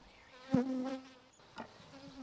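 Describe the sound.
Honeybees, mostly nurse bees inside a hive, buzz as they are woken up. A steady low drone rises into two louder, brief swells of buzzing, then settles back to a softer hum.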